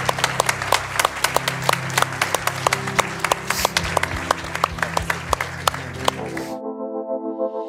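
Church audience applause welcoming people at the close of a service: many dense, steady claps that hold at an even level, then stop abruptly near the end.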